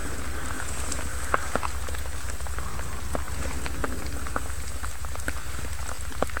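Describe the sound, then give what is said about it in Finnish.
Rain falling through a dark forest at night during a nighttime forest race, a steady even hiss dotted with many scattered drop taps, with no voices. “sade. Se jatkuu edelleen, mutta kyllä se tästä on helpottamassa jälleen”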